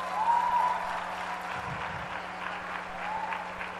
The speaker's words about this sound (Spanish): para el cual pido un aplauso